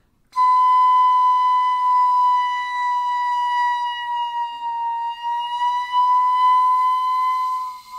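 A piccolo holds one sustained, bright high note with strong overtones while the headjoint is slowly rolled in and out, the pitch staying steady as the tone color shifts slightly, loud and alone for about eight seconds.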